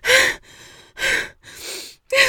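A person gasping for breath: three sharp, loud gasps alternate with two softer, longer breaths in between, each separated by short pauses, with no speech.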